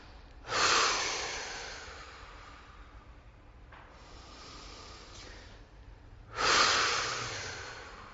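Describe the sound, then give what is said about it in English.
Slow exhalations during a guided yoga breathing exercise: two long, airy breaths rise and fade a few seconds apart, with a fainter breath between them and no talk. “Drop your breath. Feel this. Now feel this little bit of anxiety, excitement in your chest. So let's breathe it out.”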